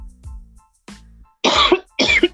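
A person coughs in short bursts while not smoking, seemingly choking on nothing: a couple of softer throat sounds come first, then two loud, harsh coughs close together.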